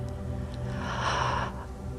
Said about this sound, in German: Atme tief ein